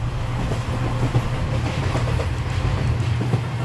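A train runs on rails, heard from inside a passenger compartment: a steady, loud rumble with low droning hum and a faint, recurring clatter throughout, no voices.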